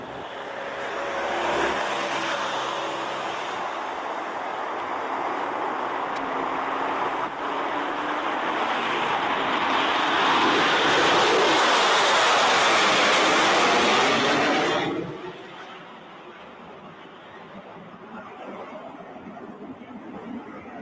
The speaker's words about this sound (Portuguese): E aí, mais uma filmagenzinha para a gente curtir também, uma decolagem sensacional.